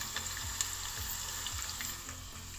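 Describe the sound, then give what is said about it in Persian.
Meat fries in a pan with onion and garlic, giving a steady, dense sizzle and crackle that carries on evenly throughout without voices. “حالا گوشتتو به این مواد اضافه میکنی تا خوب تف بخونه.”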